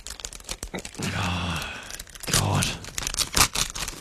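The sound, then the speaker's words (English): A paper envelope being torn open, giving rough tearing and crinkling noises in a few bursts of moderate loudness. “You can open up that envelope and we all find out together.”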